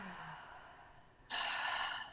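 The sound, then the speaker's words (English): A soft inhale through the nose, then a stronger, breathy exhale that rises abruptly in loudness and holds for under a second, with no talking. “take a breath in through the nose, and exhale out the mouth or out the nose.”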